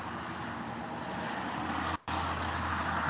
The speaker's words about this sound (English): Is one of you guys talking on the road? Is someone driving and doing a Skype call? Oh, you know, I'm actually outside my house.